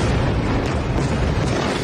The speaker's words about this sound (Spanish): Este es el sonido de los bombardeos esta madrugada en ese país, en Irán.